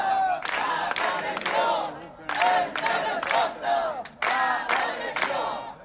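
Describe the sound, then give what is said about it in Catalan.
A crowd of more than fifty people at a protest gathering outside Santa Maria town hall, held in response to homophobic and racist attacks, shouts loud rhythmic chants in repeated bursts. “El que sentiu és la concentració que va reunir ahir més de mig centenar de persones davant l'Ajuntament de Santa Maria.”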